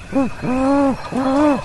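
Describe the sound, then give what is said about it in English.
A man imitates a great horned owl during a turkey hunt on a ridge: three low, breathy hoots, the first short and the next two longer, each arching gently in pitch, loud and alone. “He takes a deep breath and hoots like a great horned owl.”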